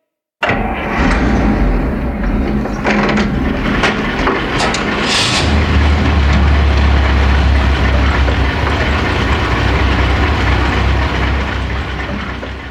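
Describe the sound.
Truck engines started with a hand crank roar into life: a loud, continuous rumbling clatter with a knocking engine rhythm. A deep low drone grows heavier partway through and holds steady to the end.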